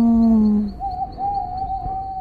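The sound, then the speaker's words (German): An owl hooting at night in a forest: a long, low, steady hoot gives way to a higher, slightly wavering call that carries on to the end, with no talk. “Eine Eule rief unheimlich, Huhu.”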